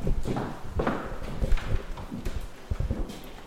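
Footsteps walking through the historically furnished rooms of an old house, many hard, irregular steps landing one after another at a relaxed walking pace.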